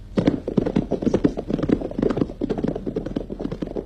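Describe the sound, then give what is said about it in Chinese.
Horse hooves clip-clopping as riders travel on horseback, many sharp knocks in a quick, uneven trotting rhythm, loud and continuous throughout with no talk. “罗荣桓和参谋警卫员骑马赶往八纵队，八纵队司令员也骑马迎来”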